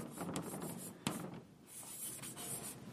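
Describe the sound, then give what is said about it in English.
A pen scratches out a single word by hand in quick, scraping strokes, with one sharper tap partway through, steady and moderately loud with no talk. “I'll just write one word here.”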